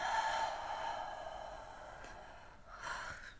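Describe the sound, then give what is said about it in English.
A deep, slow exhale during a guided breathing exercise, a soft, airy rush of breath that gradually tapers off, then a brief second breath near the end, with no talk. “let's pause and take a nice deep breath. And exhale.”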